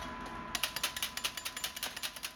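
Quick metallic taps from a metal spatula striking candy sticks to cut them into 18-inch lengths, faint and steady, many evenly spaced ticks in a brisk rhythm that begins after a short stretch of low hum.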